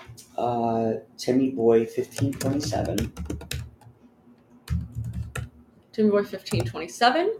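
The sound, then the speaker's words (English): Typing on a computer keyboard, quick runs of light key clicks continuing under steady talking. “Actually, I'll even type that in here.”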